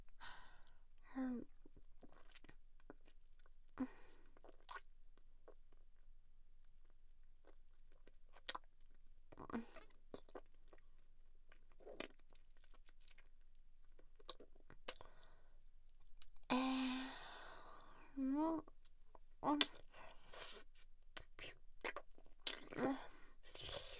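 Faint, wet chewing of food with soft mouth clicks and smacks scattered sparsely through a mostly quiet stretch, growing a little busier toward the end.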